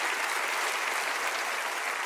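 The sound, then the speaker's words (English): A church audience applauds to welcome other churches joining in, producing a continuous, full wash of clapping from many people that holds steady from start to finish. “Come on, put your hands together and say a big hello.”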